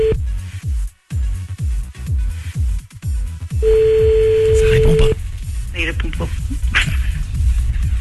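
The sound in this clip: An outgoing phone call produces one long, steady ring tone at a mid pitch. It sounds amid talk and other background noise.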